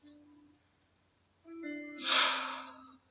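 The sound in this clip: A single breathy exhale during a guided meditation, a soft rushing sigh that swells and then fades, set over faint sustained tones in the background.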